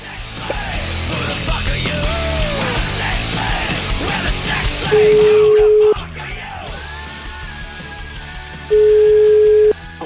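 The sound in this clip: Ringing tones on a telephone line as a call is placed to a small town in the province of Belluno: two loud, steady, low-pitched beeps of about a second each, separated by a pause, following a busier stretch of mixed sound with voices.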